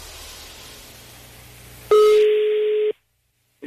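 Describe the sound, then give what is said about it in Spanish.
A telephone tone heard while a call is placed: a faint hiss, then one loud, steady, mid-pitched tone of about a second that cuts to silence, with the next tone just starting at the end. “Sí, pues es que te estoy marcando.”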